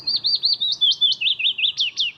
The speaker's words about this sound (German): So singt ein Fitis, ein kleiner gelb-grau gefiederter Vogel.